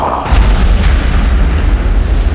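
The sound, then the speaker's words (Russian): An explosive charge detonates in a starship corridor beside the control-room door: a sudden loud boom after a brief quieter lead-in, then a heavy, sustained low rumble that carries steadily on to the end. “Взрыв расчистил пространство перед входом в командную рубку.”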